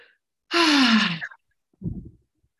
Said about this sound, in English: first, exhale, please.